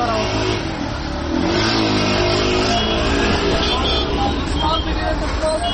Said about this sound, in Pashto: په ښارونو کې د موټرو د تک را تک شور